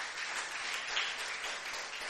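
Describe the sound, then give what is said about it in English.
Applause for performers during a lively church service, a steady wash of many hands clapping at a faint, even level with no clear breaks. “So give them another big hand clap.”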